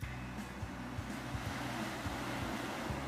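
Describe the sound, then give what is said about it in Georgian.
Waves washing on a beach of clean sand and large boulders polished by wind and water, a steady, broad roar mixed with wind and no distinct single breakers. “ეს ადგილი მსოფლიოში საუკეთესო სანაპიროების ხუთეულში შედის.”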